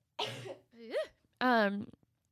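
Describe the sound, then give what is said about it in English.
Quick coughing and throat clearing from a speaker pausing mid-talk: three short, throaty bursts with a voiced, rough edge, loud and alone with no words. “And so let me cough really fast”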